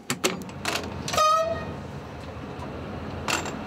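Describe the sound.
A locomotive moves at a railway museum with rumbling and irregular metallic clanks. A short tonal horn toot sounds partway through, and the clatter continues afterward.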